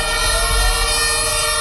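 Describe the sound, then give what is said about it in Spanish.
Fire engine siren as firefighters arrive at a blaze in a hotel building under construction: a loud, steady sustained wail rich in harmonics over a low engine rumble. “Este es el sonido de esa llegada de los bomberos.”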